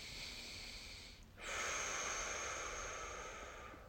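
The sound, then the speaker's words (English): A deep breath during a guided meditation: soft airy breathing, a brief pause, then a long, steady, louder rush of air that slowly tapers off. “All right, so take a deep breath.”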